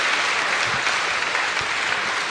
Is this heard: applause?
yes